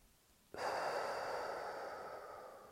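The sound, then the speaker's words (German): One soft nasal breath: a faint, airy hiss of air through the nose that begins abruptly and tapers off gradually over about two seconds. “Ich atme durch die Nase ein und wieder aus.”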